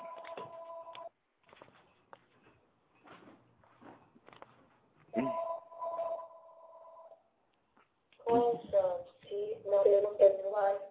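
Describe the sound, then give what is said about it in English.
A telephone rings with steady electronic tones, then a synthetic talking caller ID voice announces the incoming call. Faint ticks and rustles fall between the rings. “Yeah, it's my fucking talking caller ID. I'm sorry about that.”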